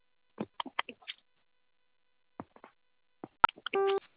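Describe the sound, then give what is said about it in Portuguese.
A telephone keypad tone sounds as zero is pressed on an automated call to reach an attendant. A few soft clicks and taps come first, then after a pause one short, steady beep of about a third of a second. “Para concluir a liberação, aperte o zero e fale com um atendente.”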